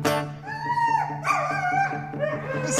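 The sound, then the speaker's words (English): A dog barking and whining in a run of high, wavering yips and yelps with bent, sliding pitch, over a low steady hum, with no talk. “That is a dog.”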